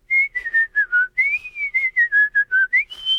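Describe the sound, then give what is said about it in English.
A person whistles a tune alone: many short, clear, pure notes in a lilting melody that wavers up and down and ends on a higher held note. “and they think, okay, that's good whistling.”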